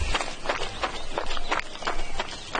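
A wounded man runs up, clutching a bleeding belly. His running footsteps come in a quick, even rhythm of many thudding strides that carry on throughout.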